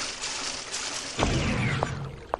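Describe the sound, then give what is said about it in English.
Water sloshing as a player wades through a flooded room in a video game, a steady faint wash of liquid broken by a few brief, sharper splashes. “And now we're wading through the water.”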